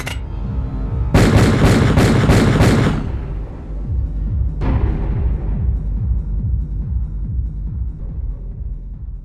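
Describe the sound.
Gunshots in a dramatized shooting where six bullets are fired: a rapid string of loud, sharp cracks, then a single further bang that rings and decays.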